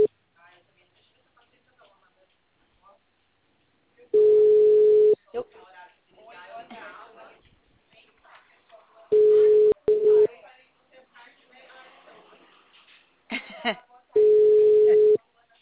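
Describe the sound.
Telephone busy signal heard as a few steady, mid-pitched beeps about a second long, spaced several seconds apart, with quiet talking in the gaps between them.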